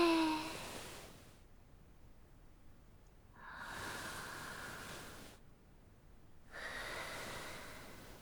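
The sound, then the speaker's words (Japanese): Slow, faint breathing in and out during a guided breathing exercise, a few long, airy breaths separated by quiet pauses, with no talk. “吸って吐いて”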